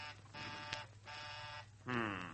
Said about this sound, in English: There's someone ringing the doorbell.